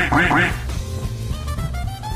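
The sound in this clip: A human voice imitates a duck: two loud, nasal quacks in quick succession at the start, then a quieter, steady background with no further quacks.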